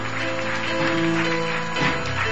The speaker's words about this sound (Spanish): Denle un aplauso a Dios por ella.